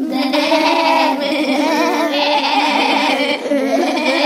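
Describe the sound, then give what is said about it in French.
A flock of ewes bleats in a sheepfold, many voices overlapping into one loud, continuous, wavering chorus with no pause. “Une immense clameur résonna dans la bergerie. Chaque brebis tentait de faire entendre son point de vue sur la question.”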